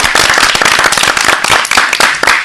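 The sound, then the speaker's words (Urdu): Loud applause for a child, with dense, rapid clapping from many hands that carries on steadily from start to finish. “Farhan کَرو شُکریہ ادا, أمۍ سٕنٛدِ خٲطرٕ زوردار ژَرِ پوٚٹھ.”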